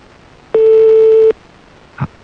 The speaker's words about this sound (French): On va laisser sonner alors jusqu'à ce que ça tombe sur le répondeur.